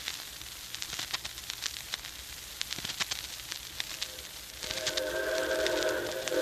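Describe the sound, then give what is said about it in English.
An approaching 4-6-4 Hudson-type steam locomotive, with a faint, continuous rumble and rapid irregular chuffing, then a sustained whistle rising over the noise near the end. “here she comes. Yep, right on time. Yeah, it's a 464 type locomotive. Looks like a Hudson.”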